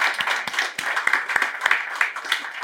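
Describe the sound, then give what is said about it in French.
An audience applauds during a church service, a dense patter of many hands with sharper individual claps popping out, moderately loud and steady throughout. “Est-ce qu'on peut acclamer le Dieu qui nous aide à continuer de croire?”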